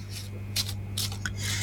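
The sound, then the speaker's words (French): A deck of playing cards being shuffled by hand: a few soft, papery riffling bursts over a steady low hum. “Alors, je mélange. Alors, je vais déposer les cartes et un stop quand vous le désirez.”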